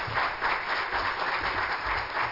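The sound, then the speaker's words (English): An audience at an evening church service claps in praise, producing a full, slightly muffled crackle of many hands that swells and eases in loose pulses without pause. “Give the Lord a hand clap of praise tonight.”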